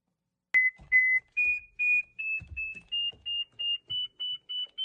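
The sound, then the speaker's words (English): A Mammut Barryvox avalanche beacon beeps in a quick series of many short, clear, high tones, each one a little higher in pitch and the gaps growing slightly shorter. “If you know that sound, good on you, because that is the sound of a Barry Vox from Mammut, okay? It's the best beacon that you can buy”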